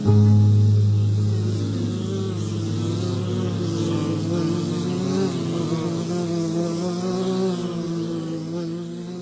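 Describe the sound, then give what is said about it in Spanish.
Bees buzzing in a continuous droning hum, loudest at the start and then holding steady and full for about nine seconds, with no voices. “Vuelan las abejas muy temprano en la mañana”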